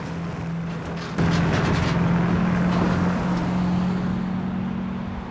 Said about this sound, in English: They pull away through the bland, colourless parking area towards the main road, another timber truck close behind them.